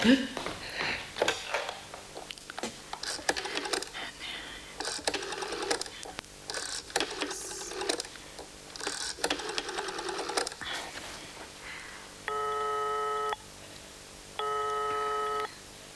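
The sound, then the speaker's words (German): A telephone being dialed, heard as several bursts of rapid, mechanical clicking, followed by two steady ringing tones at the end. “Kann ich mal telefonieren?”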